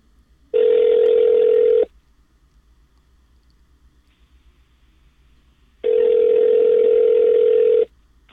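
Ringing tone of a telephone call being placed: two long, steady buzzing tones of equal pitch, each lasting about a second and a half, separated by roughly four seconds of near silence.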